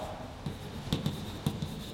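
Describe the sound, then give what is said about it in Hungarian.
Faint writing strokes come from a lecturer writing out a physics formula, a soft scratchy hiss broken by a few light taps as the pen or chalk meets the surface. “tulajdonképpen most én egy erősségjelet is írok”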